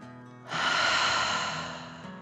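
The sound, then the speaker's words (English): One long, deep breath: a breathy rush of air that starts abruptly after a brief voiced tone, swells, then eases off gradually. “The 5 little fish took another deep dragon breath in and out.”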